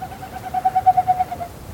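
A bird call: a steady, mid-pitched warbling tone that pulses rapidly for about a second. It has an owl-like, hooting quality and is heard alone, with no talk.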